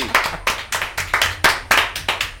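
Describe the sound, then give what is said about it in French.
Clapping in a radio studio, a steady series of sharp single claps at roughly three per second, evenly paced and fairly loud with no voices over it. “On peut l'applaudir.”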